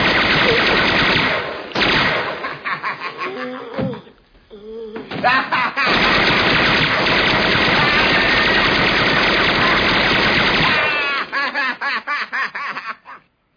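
Tommy-gun style machine-gun fire from the gangster film scene in Home Alone: short rattling bursts give way to a long, loud, continuous volley of rapid shots, then a few scattered final shots.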